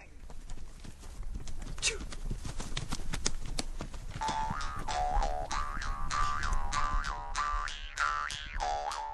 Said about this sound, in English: Five days on horseback, riding and camping, looms before us.